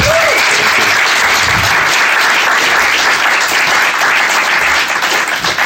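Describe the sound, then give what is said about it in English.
A Comic-Con panel audience gives Brian Bolland loud, dense applause that holds at full strength without a break for the whole stretch. “Ladies and gentlemen, will you please welcome Brian Bolland.”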